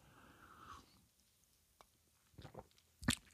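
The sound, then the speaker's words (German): A quiet sip of coffee, made up of a few soft, brief slurping mouth noises in near silence, with the last one the loudest. “Der muss erstmal einen Schluck Kaffee trinken. Moment.”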